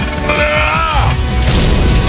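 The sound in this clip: A heavy door pushed shut: a creaking, downward-bending groan is followed by a loud, rumbling slam.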